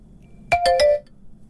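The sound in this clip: Telephone ringing with an incoming call: three quick, bright electronic chimes in rapid succession lasting about half a second in all, alone over a faint low background.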